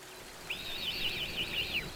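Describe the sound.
Bird call from a hoopoe at its nest hidden in the trunk of a large tree: a bright, high, rapid trill of linked chirps lasting over a second, alone against quiet background.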